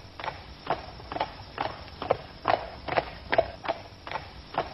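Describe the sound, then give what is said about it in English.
Horses walking slowly, their hooves clip-clopping in a steady, even rhythm of hollow knocks at moderate loudness, with no other sounds over them. “So the four of them slowly rode out of town.”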